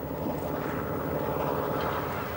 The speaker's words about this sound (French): Un navire est de retour. Ce bateau de pêche rentre au port de Loctudie.